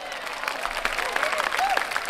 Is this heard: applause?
yes

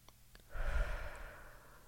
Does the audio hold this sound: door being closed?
no

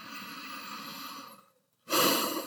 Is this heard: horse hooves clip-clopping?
no

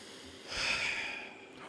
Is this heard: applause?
no

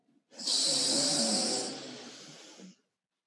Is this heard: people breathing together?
yes

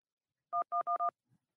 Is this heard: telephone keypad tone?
yes

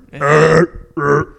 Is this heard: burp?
yes

